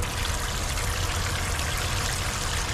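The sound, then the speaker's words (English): Running water at a fairground hand washing station gives a steady, even hiss with a low rumble underneath. It holds level for the whole clip and no voices are heard. “This is a hand washing station. It's exactly what it sounds like. You wash your hands with it.”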